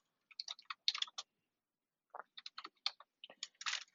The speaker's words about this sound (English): Okay, so I was just typing in on here.